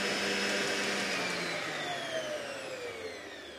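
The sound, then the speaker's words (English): Electric mixer beating five egg whites until stiff, a loud, steady whirring drone with a high motor whine that slowly drops in pitch. “So I also need 5 egg whites that have been beaten stiff. So I put them in the machine. Yep, those are looking pretty good. I think I can switch that off now.”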